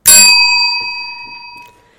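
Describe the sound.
A single bright ding from a small bell, a sharp strike followed by a clear ringing tone that fades away over about two seconds.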